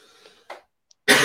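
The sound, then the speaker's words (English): People with a contagious cough give a short, soft cough and then a louder, harsher burst of coughing at the very end, with quiet gaps between them. “we're all coughing in here”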